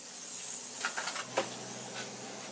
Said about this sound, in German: zündet den Brenner an. Eine heiße Angelegenheit, vor allem im Sommer.